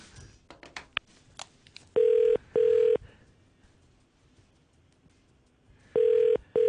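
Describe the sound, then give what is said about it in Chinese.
Telephone ringback tone as a call is placed to a listener from a Hong Kong radio studio: two paired bursts of a steady mid-pitched buzzing tone separated by a long gap, preceded by a few faint clicks. “唔知佢今日接唔接到电话咧？”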